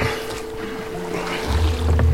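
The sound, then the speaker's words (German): A boat is turned over and pulled into river water: a steady watery wash with a low rumbling surge that swells and grows louder through the second half. “Leopold Friedmann half ihr, es umzudrehen und ins Wasser zu ziehen.”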